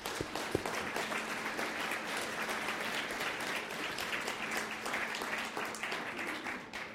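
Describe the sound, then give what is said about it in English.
Church audience applause for members leaving to serve abroad: many hands clapping in a steady, dense stream for several seconds, easing slightly at the very end. “So let's actually give them a round of applause one more time”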